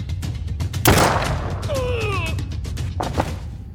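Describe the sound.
A single sharp gunshot fired during a tense confrontation cracks out loud and broad, followed by a lingering decay while raised voices speak around it.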